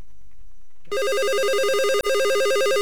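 A telephone rings with a loud, steady electronic warbling trill that starts abruptly after faint quiet and breaks off briefly once midway.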